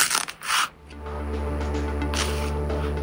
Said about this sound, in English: Is it peeling a banana? Yes, it is!